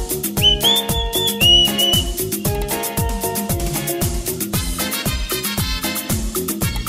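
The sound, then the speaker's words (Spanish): Shrill whistling at a disco dance party, with a few sustained high whistle tones early on over a loud, pounding electronic dance beat that runs throughout. “¿Dónde está la gente silbadora?”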